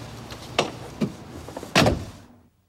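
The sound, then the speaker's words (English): A car door is opened, giving a few sharp clicks and clunks of the latch and handle, with the last and loudest thud near the end before the sound cuts to silence. “opens the door for her”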